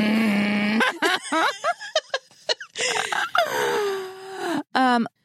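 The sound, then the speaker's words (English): A voice imitates a cartoon character's groan: a long, nasal, raspy drawn-out groan, then choppy vocal bursts, and a second sustained groan that slides lower in pitch before a final short grunt. “This is my Marge Simpson groan. Do it. Do it.”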